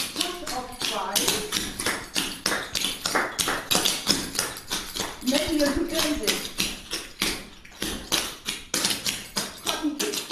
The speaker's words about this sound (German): Was genau Clogging ist und wie sich das Ganze anhört, werden wir gleich sehen. Denn ich habe mich heute mit ihr verabredet und werde eventuell selbst mal wortwörtlich in ihre Schuhe schlüpfen.